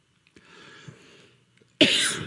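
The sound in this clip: A dry throat gives a loud, harsh cough near the end, set apart from a quieter rasping sound before it. No one talks.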